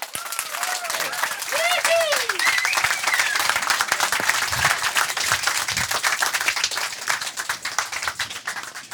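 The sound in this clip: A large crime festival audience gives a big round of applause, with loud, sustained clapping from many hands. A voice talks over the start before the clapping carries on alone.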